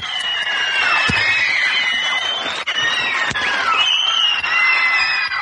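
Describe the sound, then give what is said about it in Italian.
A crowd cheers as an applause-and-cheering sound effect. The loud, continuous wash of noise carries high shouts and whistles throughout. “Ti meriti questo applauso, ti meriti, guarda.”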